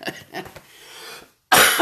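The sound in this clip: A single hard cough from someone with a cold bursts out sharply after a brief silence. Softer breathy sounds come before it.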